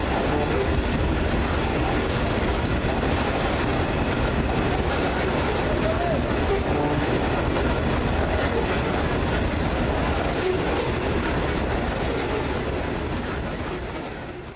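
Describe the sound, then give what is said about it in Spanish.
A coal-laden freight train from a mine in La Guajira, Colombia, rolls past with a loud, continuous rumble and rattling wheel clatter that holds steady for the whole stretch before easing slightly at the end. “el tren del Cerrejón cargado de carbón.”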